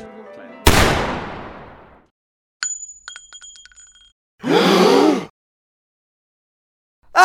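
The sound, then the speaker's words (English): Single sharp gunshot with a loud, abrupt crack that trails off in a fading decay, followed by light clinking sounds and a later burst of noise. “Ah! You shot me!”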